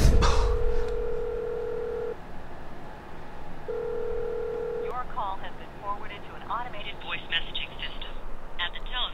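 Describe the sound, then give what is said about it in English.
Ringback tone of an outgoing phone call sent to voicemail: two long, steady electronic tones separated by a pause, the second cut short, followed by garbled, warbling line noise. “She just sent me straight to voicemail.”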